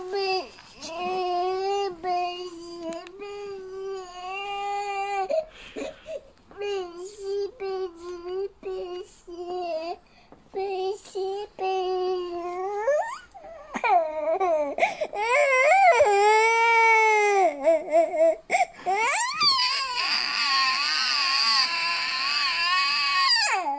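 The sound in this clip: A child cries and sobs in long, high, wavering wails, almost without pause, the pitch bending up and down between sharp sobbing catches.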